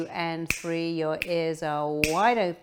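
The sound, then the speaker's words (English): Three sharp finger snaps cut through slow, calm speech, spaced evenly about a second apart. “As I click my fingers, you know, like it was yesterday.”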